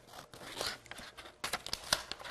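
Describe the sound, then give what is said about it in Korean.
Scissors cutting a sheet of colored paper in half, with rustling paper and then a few sharp, crisp snips and crinkles that grow louder in the second half. The sound is fairly faint overall, with no talking. “가위, scissors 가지고 반으로 탁 잘라주세요.”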